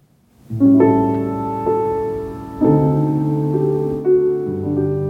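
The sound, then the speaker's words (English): Clean sampled piano plug-in heard without any record-player effect, playing a few sustained chords one after another, each struck firmly and left ringing into the next at a moderate, even loudness. “So if you turn this off, you can see this is the sound of the actual piano.”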